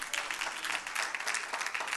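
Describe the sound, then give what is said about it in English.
Quiet, quick hand clapping from a church audience giving the Lord a clap of praise during a sermon. The claps come as a rapid, uneven patter throughout. “If you believe it, give the Lord a hand clap of praise.”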